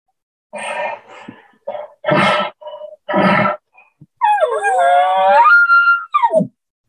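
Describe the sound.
A man's voice imitates a bull elk's call: a few short nasal, grunting notes, then a long, high, wavering squeal-like tone, ending with a couple of brief clipped notes.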